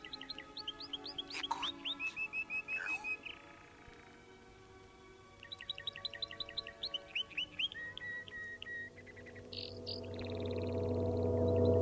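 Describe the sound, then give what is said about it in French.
Birds singing: rapid, high chirping phrases in two lively bursts separated by a short lull, over a low steady hum that swells toward the end. “Écoute le chant des oiseaux.”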